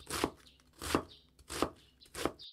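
A knife shreds cabbage on a board with four crisp, evenly spaced chops, each a sharp crunchy strike.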